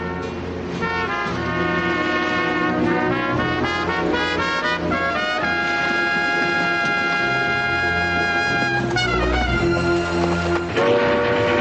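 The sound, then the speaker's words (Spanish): Steam train pulling into a frontier town, its cars crowded with men and horses, in a 1973 western; a loud, continuous rumble runs under sustained whistle-like tones throughout, with no voices. “Mientras, un tren llega al poblado desde el que partieron.”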